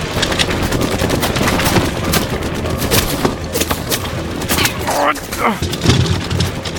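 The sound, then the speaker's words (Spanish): Gunfire in a firefight, with shots coming from the building opposite: dense, loud cracks and bursts repeat throughout in rapid, irregular volleys, like machine-gun fire mixed with single shots. “¿Viste de dónde disparan? Desde el edificio, del frente.”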